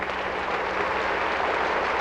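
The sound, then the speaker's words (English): Audience giving a round of applause to a group of Chick-fil-A operators who stand up, a thick, even wash of clapping that stays constant in loudness. “Let's give these guys a round of applause.”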